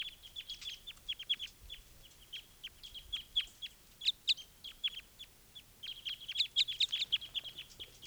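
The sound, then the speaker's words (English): A wild bird gives call type 5 near pine cones: many short, high chirps in quick bursts, with a brief lull midway before another dense run. “One of the wild birds is looking down at the pine cones, and this is bird 395 calling. Type 5.”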